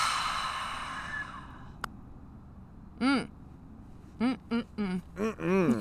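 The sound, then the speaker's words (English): A deep exhale follows a held breath, a long breathy rush of air that slowly fades away into quiet. “Inhale as much as you can. Hold. And let it go.”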